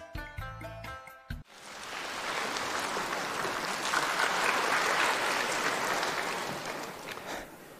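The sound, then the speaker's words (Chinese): Warm audience applause follows a traditional Chinese comic performance at a folk-art showcase: a dense, steady patter of many clapping hands swells in after a brief bit of music and holds for several seconds. “感谢大家热情的掌声，感谢大家热情的掌声啊！”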